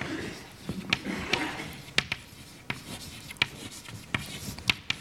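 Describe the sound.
A lecturer writing terms down by hand makes irregular sharp taps and short scratchy strokes against a quiet background. The strokes are spread throughout at an uneven pace.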